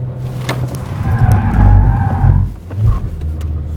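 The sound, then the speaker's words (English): A car reverses and then shifts into drive to spin around. A steady engine drone builds as squealing tyre tones rise over it, dips briefly, then the engine surges again toward the end. “As the front comes round, we then want to be selecting neutral from reverse and then get it into drive as we get straightened up going the other way, back on the power and off.”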